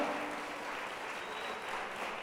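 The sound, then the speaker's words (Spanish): A church audience gives a round of applause to God during a worship service. Soft, even clapping from many hands keeps a steady patter for the whole clip, with no voices over it. “Démosle un aplauso al Señor nuestro Dios.”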